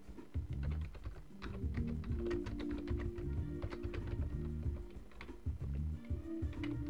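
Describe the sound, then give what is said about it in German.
Typing a title on a computer keyboard: many quick, light clicking keystrokes in uneven bursts, steady and fairly soft, with no voices. “Jetzt tippe ich den Titel ein.”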